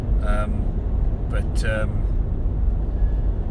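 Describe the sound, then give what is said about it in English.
A car being driven gives a steady low rumble of road and engine noise, even and unbroken, with a voice speaking briefly over it near the start. “I'm actually driving. I don't even know if this has come out properly”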